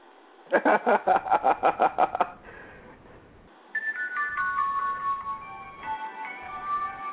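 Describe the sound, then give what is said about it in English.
A mobile phone ringtone: a rapid burst of about nine bright, evenly pulsed electronic tones, then after a short pause a tinkling, repeating electronic melody that plays to the end. “The fuck is that? My Obama phone.”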